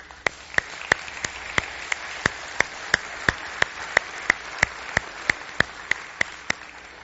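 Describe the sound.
Audience applause welcoming a guest speaker to the platform, heard as many sharp, evenly spaced claps in a steady rhythm over a constant soft hiss.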